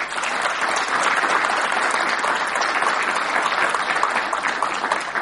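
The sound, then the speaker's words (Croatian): Sustained applause rises from an audience honouring a journalist's reportage award from a Montenegrin journalists' association: a thick, even stream of clapping that holds steady from start to finish. “Zaista zaslužuje jedan veliki aplauz.”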